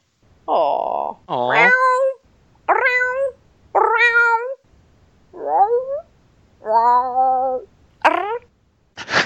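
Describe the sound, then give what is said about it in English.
A cat meowing over and over: seven loud, drawn-out meows of varying pitch, some rising, with short pauses between them, then a brief clipped final call. “Come on. Yell at your cat.”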